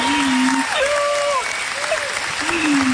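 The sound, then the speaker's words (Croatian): Audience applause follows a live duet: dense, steady clapping lasts the whole stretch, with a voice rising above it now and then. “Kakav aplauz.”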